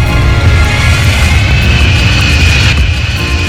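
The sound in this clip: An airplane taking off gives a loud, steady roar: a low rumble carrying a high, thin engine whine, holding level throughout.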